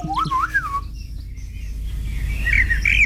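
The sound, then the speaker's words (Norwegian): A Eurasian blackbird sings mellow, fluting phrases that warble up and down, then gives higher twittering notes toward the end, all over a steady low background rumble. “Turdus eller svarttrost. Merula. Ja. Den ses jo vanligvis i hager, parker og skogsområder, høres ut som dette.”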